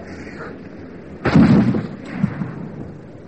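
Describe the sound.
A gunshot from a rifle fired at a fleeing man in a wartime home guard scene: one loud, sharp blast with a long, rumbling decay, set against quiet background.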